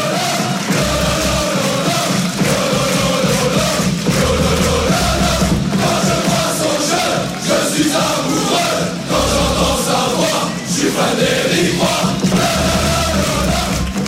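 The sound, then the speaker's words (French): Football fans chant a song honouring a Ligue 1 coach. Massed voices bellow in a loud, continuous chorus with a steady rhythmic pulse underneath. “tu es le seul qui a une chanson à sa gloire, et c'est pas n'importe quelle chanson on écoute.”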